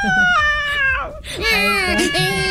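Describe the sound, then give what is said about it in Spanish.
A baby wails loudly in strained, wavering cries, with two long sobs separated by a brief catch of breath. “¿Por qué llora? Porque le metieron un gol.”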